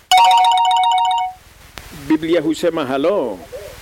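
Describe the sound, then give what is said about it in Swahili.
Electronic telephone ringtone on a radio call-in line, a loud, steady warbling tone lasting just over a second, then a voice starts talking. “Na sasa ninachukua laini ya kwanza. Simu ya kwanza hapa kwa laini ni ya nani?”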